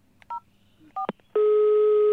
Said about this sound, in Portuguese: Vou ligar-lhes agora para confirmar.